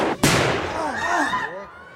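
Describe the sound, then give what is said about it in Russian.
Firecrackers set off by people celebrating: one sharp, loud bang early on, followed by a lingering, wavering whistling tail that slowly fades. “Уже петарды бабахают, веселятся.”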